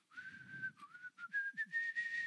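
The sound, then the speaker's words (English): A man whistles a tune while swinging a pick at work: a bright, clear, melodic run of short and held notes, moderately loud and alone. “and he's whistling while he's using a pick.”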